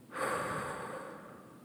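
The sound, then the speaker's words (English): A person breathing, heard as one sustained, airy rush of breath that starts abruptly and holds steady at moderate loudness, alone with no voices. “I want you to breathe in and out. In and out.”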